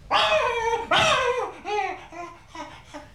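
A dog barks and yelps excitedly in a quick series of harmonic, almost laugh-like calls. The first two are loudest, and the rest grow shorter and softer.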